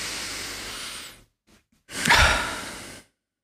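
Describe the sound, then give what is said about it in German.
A person takes a deep breath in during a guided breathing exercise, then exhales. Two long, airy breath sounds are separated by a short pause, and the second one is louder and rougher. “lass uns noch einen tiefen Atemzug gemeinsam nehmen und mit dem Ausatmen machen wir die Augen einfach wieder auf”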